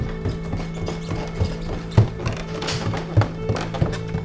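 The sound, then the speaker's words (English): Footsteps of shiny black men's dress shoes walking up: a few hard, clipped heel taps spaced unevenly over a steady low hum. “And then, out my window, I see a pair of, like, shiny black men's dress shoes walk up. I think they're headed towards the shop.”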